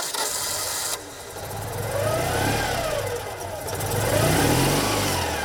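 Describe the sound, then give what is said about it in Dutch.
A Citroën 2CV engine runs with a buzzy mid-pitched drone. It revs up twice, its pitch climbing and then dropping back each time. “dat is een onmiskenbaar het geluid van de Deux Chevaux, ook wel de lelijke eend genoemd. Maar dat typische motorgeluid,”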